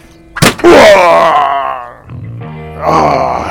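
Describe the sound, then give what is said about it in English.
A thrown gun strikes a man's head with a sharp thud, followed at once by a loud, drawn-out groan of pain and then a second, quieter moan. “You threw your gun at my head.”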